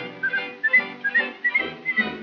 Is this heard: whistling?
yes